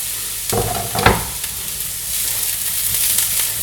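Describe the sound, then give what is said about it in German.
Onions drop into a pan of already browned carrots and sizzle. A couple of thumping stirs come near the start, then a steady, loud frying hiss carries on alone. “Jetzt tue ich die Karotten hier. Wunderbar. Die sind schon ein bisschen braun, haben also auch schon Röstaromen. Da kommen jetzt die Zwiebeln dazu.”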